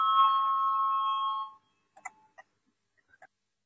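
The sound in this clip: An electric bell rings to call a parliamentary vote, a steady, bright metallic ring lasting about one and a half seconds before stopping abruptly, followed by a few faint, scattered clicks in the quiet.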